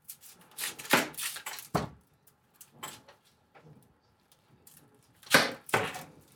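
A mandoline slicer cuts through food while a meal is cooked, giving many quick, crisp scraping swishes. The strokes come in irregular bursts, loud at first, quieter in the middle and strong again near the end.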